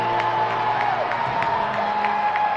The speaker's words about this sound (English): Now the crowd really into it.